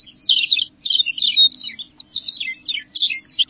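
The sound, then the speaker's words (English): Songs of grassland birds such as McCown's longspur: high, sweet, warbling phrases of rapid chirps and trills that repeat with brief pauses, loud and clear with no voices. “Their sweet songs fill the warm air. Songs such as those of McCowan's longspur,”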